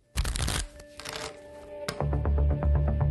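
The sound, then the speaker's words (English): A deck of playing cards being shuffled: a loud, papery burst, then scattered light clicks, ending in a fast, even run of crisp riffle flicks. “This is not your ordinary deck of playing cards. These cards contain 52 unsolved cases, and with every hand that's played, the stakes are unusually high.”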